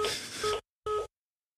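Telephone busy tone heard after a call: two steady electronic beeps, the first longer and the second shorter, separated by a brief gap and then silence, with no voices.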